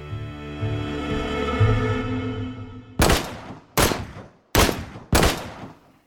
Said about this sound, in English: The first bullet entered his back, exiting out the left side of his stomach. The next two shots hit the left side of his face, on the cheek.